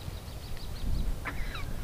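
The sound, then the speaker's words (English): Robins giving their evening go-to-bed calls: a few faint, thin, high chirps and a brief sliding note over a low background rumble, with no talking. “Not far away, robins make what Miller says is their go-to-bed call.”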